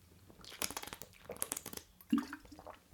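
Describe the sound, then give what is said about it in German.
Soft, wet sipping and mouth sounds of someone taking a quick drink, faint and close, with small liquid clicks and a fuller squelch toward the end. “Lass mich mal kurz einen Schluck trinken.”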